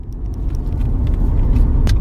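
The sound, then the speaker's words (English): A car drives toward a home in Salem, Oregon, with a steady, loud, low engine and road rumble throughout and faint light ticks above it. “A few weeks later, we drive to her home in Salem, Oregon, about an hour from Portland.”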